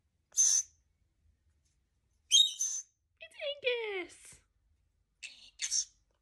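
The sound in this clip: A pet bird chirps and whistles: a short bright burst, a louder chirp, then a falling whistled phrase, followed by two more quick chirps, with quiet gaps between.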